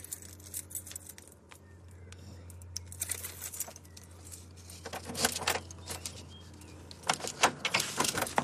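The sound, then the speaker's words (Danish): Keys jangling as someone locks their door: scattered metallic jingles and clicks at first, building to louder, busier rattling toward the end. “Så låser jeg min dør lige.”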